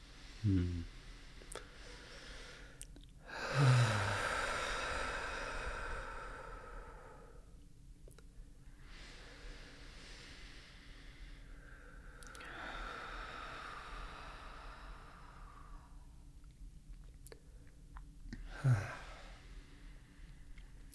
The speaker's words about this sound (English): I'm really loving these deep breaths. Me too. They feel so good.